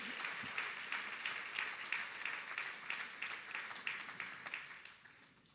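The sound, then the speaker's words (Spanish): A church audience applauds with a dense, continuous patter of many hands clapping. The applause is fairly quiet and tapers off toward the end. “Vamos, dale un aplauso al Señor. Put your hands together for the Lord.”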